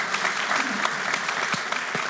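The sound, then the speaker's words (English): Church audience applauding, a dense, steady wash of clapping with a few sharper individual claps standing out. “Last lie. You can clap for that. It's great.”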